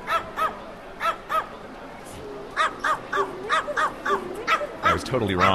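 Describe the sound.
Dogs bark and yelp in a New York hotel lobby: many sharp, high barks arrive in uneven bursts, loud against a steady background din, with a voice speaking briefly near the end.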